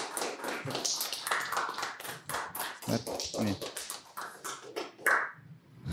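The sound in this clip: A few people in a studio clap to welcome Kazakhstan's national futsal players. The sharp, irregular claps and taps come in quick bursts, mixed with talk, and a louder clap lands near the end.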